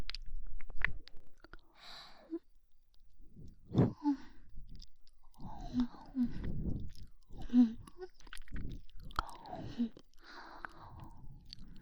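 Wet mouth sucking and smacking on the ears in an ASMR-style recording: many soft, irregular, close-up slurps and smacks with brief gaps, quiet and intimate.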